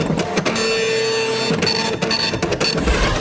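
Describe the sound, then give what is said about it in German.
A dot matrix needle printer logging train passages in a railway relay signal box, buzzing and rasping loudly in a series of rapid printing bursts separated by brief pauses. “Und jede Durchfahrt dokumentiert der Nadeldrucker.”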